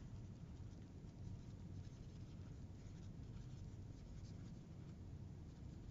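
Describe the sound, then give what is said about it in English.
Pen or pencil scratching on paper as someone writes something down, a faint, steady, continuous scratching texture with no pauses and no talking. “Let me just write that down.”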